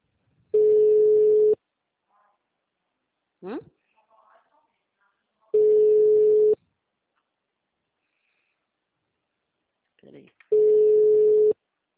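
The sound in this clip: A telephone busy-signal tone on a call that goes unanswered: three long, steady mid-pitched beeps, each about a second, spaced roughly five seconds apart, with faint brief noises in the gaps.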